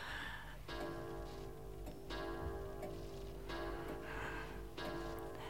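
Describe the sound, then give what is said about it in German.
A clock ticks in a tense, sleepless night scene, four resonant, ringing tocks spaced evenly and slowly over a dense, constant hum. “Mistuhr. Satansuhr. Ich erwisch dich schon noch. Warte nur, du wirst auch aufhören.”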